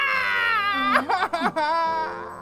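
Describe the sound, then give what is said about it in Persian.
A loved one cries, with a wavering, tearful voice that breaks into a few choked sobs midway before settling back into a steady, moaning cry. “خیلی خوب، خیلی خوب، دیگه گریه نکن عزیزم.”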